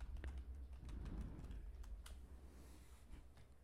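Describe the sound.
Faint typing on a computer keyboard: a quick, irregular run of light clicks with no talk over it.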